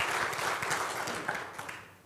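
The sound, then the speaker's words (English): Congregation applauding graduates at a Sunday service: a dense round of clapping from many people that gradually fades toward the end. “I think we need another round of applause for such a moment in their lives.”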